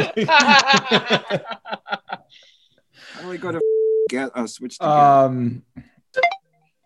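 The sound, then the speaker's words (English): A phone's text message alert sounds as a single steady, mid-pitched electronic tone lasting about half a second, set between stretches of talk and laughter. “Made some noise. Yeah, it was some like computer noise. My phone. I got a text.”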